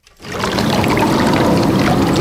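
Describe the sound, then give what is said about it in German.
River water of the Main in Hesse splashing and trickling, a steady, loud, broad rushing wash that starts abruptly after a brief silence and continues evenly throughout. “Das Wasser im Main plätschert vor sich hin.”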